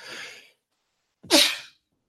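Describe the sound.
A single loud sneeze bursts out with a sharp onset and dies away within about half a second. No one talks over it.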